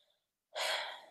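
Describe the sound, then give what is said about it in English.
A single deep breath drawn in after a moment of near silence: a loud, breathy rush that starts abruptly and holds steady for about half a second before easing slightly. “Let me just deep breath real quick.”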